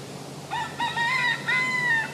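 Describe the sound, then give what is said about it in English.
A big golden rooster with a red crown crows loudly in a bright, harmonic call broken into a few sustained, slightly wavering segments that rise and hold before cutting off. No voices are heard. “So it's got a red crown on its head. It's a big golden cock.”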